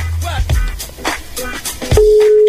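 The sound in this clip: A telephone dial tone sounds while a call is being placed. It is a steady, single-pitched hum that starts partway through, after people speak, and holds unbroken to the end.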